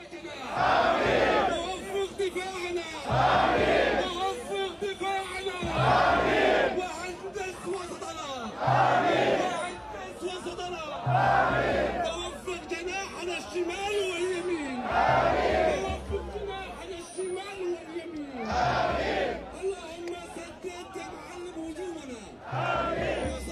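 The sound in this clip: Football fans chant together before a match, a large crowd roaring the same loud phrase over and over, with each burst lasting a couple of seconds and separated by brief dips, in a steady rhythm.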